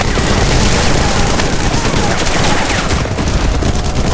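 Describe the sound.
Heavy gunfire in a street battle near sandbagged positions at a command building in Minsk: a loud, dense barrage of overlapping shots and bursts that stays unbroken throughout.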